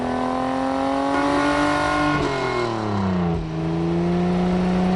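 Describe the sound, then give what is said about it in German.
A race car engine speeds along a street in a steady, loud drone, its pitch falling twice as it shifts gears. “Und schwupps ist Kali ein Kali-Rennauto und saust die Straße entlang.”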